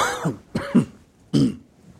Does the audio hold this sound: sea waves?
no